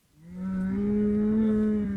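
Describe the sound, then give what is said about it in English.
Cattle settled in their pen at a ranch on the San Carlos Apache Reservation in Arizona give a single long, low moo at golden hour, steady and sustained with a slight rise partway through. “It's golden hour at a cattle ranch on the San Carlos Apache Reservation. The sun is low and the animals have settled in their pen.”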